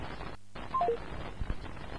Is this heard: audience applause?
no